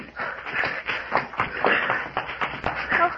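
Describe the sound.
Footsteps of people running into a cave in a radio drama: hurried, irregular scuffs and thumps of shuffling feet come in a fast, uneven patter.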